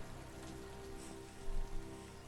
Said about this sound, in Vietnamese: Cơn mưa xối xả kéo dài khoảng 2 giờ đồng hồ kết thúc.